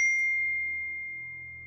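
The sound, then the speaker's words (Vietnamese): A mobile phone gives a text message notification tone: one clear, sustained high electronic ding that rings out alone and fades slowly over about two seconds, with no voices. “Điện thoại của Tiên báo có tin nhắn”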